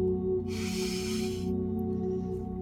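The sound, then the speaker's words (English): A person takes a single slow, deep breath in during a guided breathing exercise. It is a faint, airy inhale of about a second over a steady low hum. “So just breathe in”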